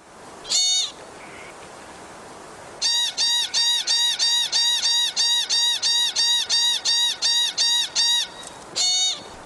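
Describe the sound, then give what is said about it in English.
Sharp, nasal squeaking calls of a pika, a small chinchilla-like rodent of the Rocky Mountains. A single call and a pause lead into a long, steady run of evenly spaced high squeaks, then one final call, with no voices. “That's the sound of the pika, a smallish rodent similar to the chinchilla that's found throughout the Rocky Mountains from New Mexico to Canada.”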